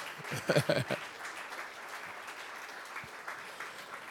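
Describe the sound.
Hand clapping bursts out in a quick cluster of sharp, uneven claps during a worship gathering, then fades to a faint, scattered patter over low background noise.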